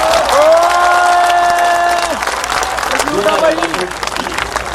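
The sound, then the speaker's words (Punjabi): Loud audience applause at a gathering, called for in honour of a hostel warden who fed the residents. Dense clapping fills the whole stretch, with voices and shouts rising over it. “ਮੈਂ ਇਹਦੇ ਨਾਂ ਤੇ ਇੱਕ ਤਾੜੀ ਮਾਰ ਦੋ।”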